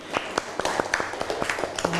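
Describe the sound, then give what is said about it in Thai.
Scattered claps from classroom students applauding a classmate, sharp irregular hand strikes of varying loudness spread across the moment, with a voice briefly audible among them. “ปรบมือเพื่อนหน่อยเร็ว”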